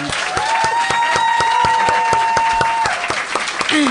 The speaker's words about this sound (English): And how about a hand for Laura House?